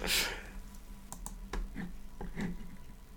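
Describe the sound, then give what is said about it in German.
A button is pressed with sharp clicks, a few quick taps in an irregular cluster over a low steady hum. “So, jetzt muss ich erstmal wieder einen richtigen Knopf drücken.”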